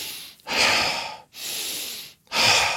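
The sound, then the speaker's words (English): Deep breathing during a guided breathing exercise: three long, loud, airy breaths with brief gaps between them, heard alone without talk. “then breathe in fully and exhale deeply. So you're gonna breathe in,”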